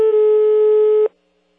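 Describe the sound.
Busy signal after a dropped mobile phone call: a single loud, steady electronic tone lasts about a second, then cuts off sharply to near silence.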